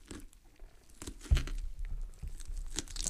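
A plastic package of meat being torn open, heard as faint crinkling and rustling broken by a few sharp ripping crackles, with no voices.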